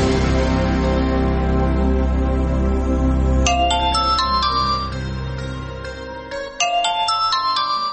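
A telephone ringtone plays two short phrases of bright, high electronic notes over a sustained music bed that thins out as the ringing goes on.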